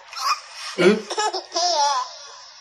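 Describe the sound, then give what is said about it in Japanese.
A baby laughs in a horror video game, a few high, bright giggling bursts separated by short pauses, ending in a longer, warbling laugh, loud and alone. “赤ちゃんの声とかやめてほしい。ババアも怖いけど、赤ちゃんも怖い。”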